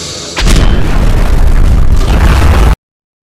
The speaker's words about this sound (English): They find a lone grenade, and out of pure muscle memory, the pin is pulled and the bomb tossed into the open mouth of the creature, and triggered by reflex alone, the jaws snap shut and...